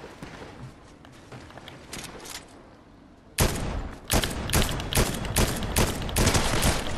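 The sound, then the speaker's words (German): Gunfire in the Fortnite video game: rapid, sharp shots that start abruptly partway through and come in many loud, closely spaced bursts, after a quieter stretch of faint game sounds. “Ich habe auf ihn drauf geschossen. Aber habe einfach nicht getroffen, ey.”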